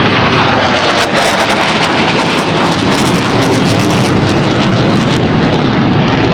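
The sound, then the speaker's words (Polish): Four F-35 fighter jets roar low overhead, a very loud, dense, unbroken rumble that fills the entire moment. “No to się stało i to mam wrażenie, że tuż nad naszymi głowami przeleciały te F-y. Cztery F-y.”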